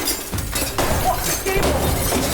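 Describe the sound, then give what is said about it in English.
A clock is smashed with a dense, noisy crash of breaking material. The clatter starts strongly and keeps going for a couple of seconds. “I promise you there's a clock there, and I would like to see you smash it.”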